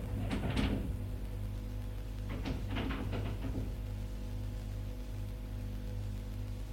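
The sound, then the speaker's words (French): Key rattling in a lock and a room door opening: a short burst of clicks and scrapes early on, then a second cluster of sharp knocks and rattles, all over a steady low hum. “Mets la clé dans la serrure.”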